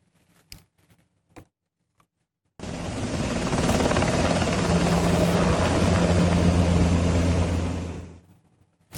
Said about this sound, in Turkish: Yunanistan'da iki yangın söndürme helikopteri havada çarpıştı. İşte o anlar.